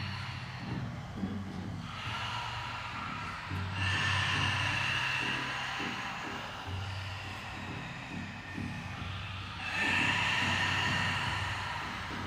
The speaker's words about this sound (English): Emphasis is just open mouth and squeezing the breath out from the whole pelvis region.